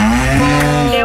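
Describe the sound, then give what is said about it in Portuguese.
A cow gives one loud, low, sustained moo lasting about a second, with a brief dip in its drawn-out tone partway through. “Salvou com uma vaca. Não chegou. Foi só uma vaca.”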